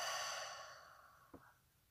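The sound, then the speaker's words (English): A slow exhale through an open mouth during a relaxation breathing exercise: a soft, breathy whoosh, strongest at the start, that fades gradually over under two seconds. It is faint and heard alone. “And gently begin to invite a long, slow, deep inhale. Open the mouth, exhale, let go.”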